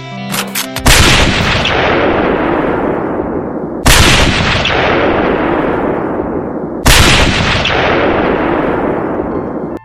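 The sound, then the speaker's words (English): Three loud gunshots ring out in a radio drama scene of a gunman on the grassy knoll shooting at the president. Each is a sharp crack followed by a long, decaying rumble, evenly spaced about three seconds apart, with no voices. “That guy on the grassy knoll's got a gun. He's gonna shoot the president.”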